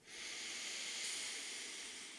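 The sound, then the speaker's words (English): A faint, deep inhale through the nose during a guided breathing exercise, a soft airy hiss that swells and eases over about two seconds. “take a couple of deep breaths with me. Go ahead and do that right now. Let's take a cleansing breath right here. So take a deep breath in through the nose.”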